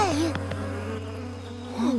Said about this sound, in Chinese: 那就是我们要找的蜂窝。 蜂蜜真好吃。 我要再弄点。 不，等等，这些蜜蜂有刺。